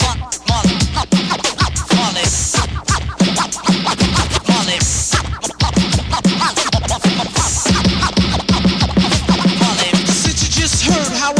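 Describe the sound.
DJ turntable scratching in a performance: dense, loud back-and-forth scrapes in a rapid, rhythmic flow that runs without pause.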